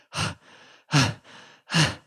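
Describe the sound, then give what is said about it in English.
A person pants from tiredness: three loud, heavy breaths out, evenly spaced, each followed by a softer, quieter breath in. “If you run suddenly or walk up a lot of stairs, you might pant because you are so tired you have problems breathing.”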